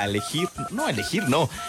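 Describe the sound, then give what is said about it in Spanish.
Telephone keypad tones dial 987: a few short electronic beeps sound over and between a lively voice. “a marcar en tu teléfono 987”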